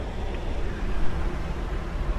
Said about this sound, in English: And what you're hearing are the street sounds one story down.